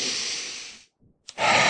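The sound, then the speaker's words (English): A deep breath drawn in and let out: a long, soft, hissing inhale, a brief silent pause, then a steady breathy exhale, with no talking. “Deep breath in”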